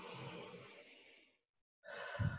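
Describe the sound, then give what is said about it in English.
A deep breath drawn in while sitting up straight for a posture exercise: a long, soft, airy breath lasting over a second, then a short silence before another breath begins. “Sit up straight. Take a big, deep breath in.”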